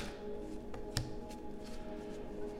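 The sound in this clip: Tarot cards are shuffled and drawn during a reading: soft papery rustles with one sharp snap near the middle, over a faint steady tone.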